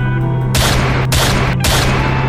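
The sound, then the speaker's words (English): Loud gunfire aimed at a pursuing car: a dense, almost continuous burst of shots broken by a couple of short gaps, over a low, steady engine drone. “Great. Now she's shooting at us.”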